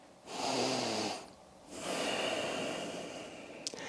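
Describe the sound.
One deep breath during a vinyasa yoga flow: a soft airy inhale, a short pause, then a longer, steady, hissing exhale. It is quiet, with no talk.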